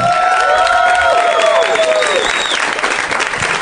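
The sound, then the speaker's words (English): Applause and cheering from an audience at a UCB Theater show: dense, steady clapping with high gliding whoops rising above it, loud throughout and easing slightly toward the end. “Fantastic turnout, that was a nice loud ovation there at the beginning.”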